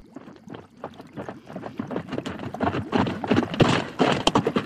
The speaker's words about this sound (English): We find our heroes, along with another miner, Mr. Pickerel, riding up to the mouth of an unexplored cave.